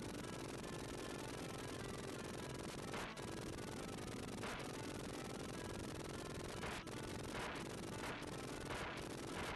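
Video game gunfire from a weapon with seemingly endless ammunition: continuous, rapid-fire shooting that forms a dense, unbroken wall of sound over the whole stretch, with no clear pauses.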